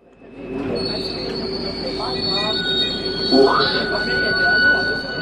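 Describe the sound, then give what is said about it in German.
Metro train climbing 400 metres of hillside from the lakeshore in Lausanne up to Épalinges: a steady, loud rumble of wheels on rail with sustained high-pitched wheel squeal ringing throughout. “Auf ihrem Weg von Uschi am Genfersee hinauf nach Épalinges überwindet die Metro 400 Höhenmeter.”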